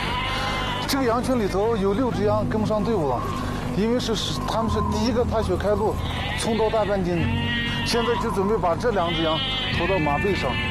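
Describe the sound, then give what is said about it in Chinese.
Sheep bleat continuously in a flock during a seasonal herding migration, with some animals lagging behind. Many loud, wavering, overlapping bleats run the whole time with no gaps. “这个羊群里头有6只羊跟不上队伍了”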